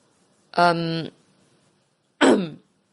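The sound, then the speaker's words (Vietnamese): A woman clears her throat twice: first a short voiced, hum-like rasp, then after a pause a rougher, breathier burst. Both are fairly loud against silence, with no talk. “Cô lúng túng rồi hắng giọng.”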